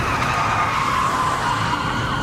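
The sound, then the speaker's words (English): Tires skid and screech as a top-heavy van spins out after clipping a car, a continuous, loud, wavering squeal over rumbling vehicle noise throughout. “This spin out was unavoidable once the top heavy van clipped that car.”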